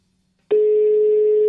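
A telephone line tone on an outgoing call that goes unanswered. After half a second of silence, a loud, steady single-pitched tone starts abruptly and holds unchanged to the end.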